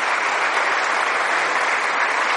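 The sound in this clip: An audience applauding during a church sermon: loud, sustained applause from many people, a dense unbroken roar of clapping that stays level for the whole stretch.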